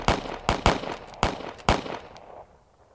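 Gunfire from a patrol of soldiers shooting their weapons into a snow cave entrance: a few sharp, loud cracks in quick succession, each with a short ringing tail, then a fading rumble.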